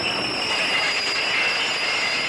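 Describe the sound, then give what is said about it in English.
Train pulling into a station: a steady rolling rumble topped by a sustained, high metallic squeal from the wheels. “And stop for a minute as the train pulls into the station and opens its doors with a whoosh.”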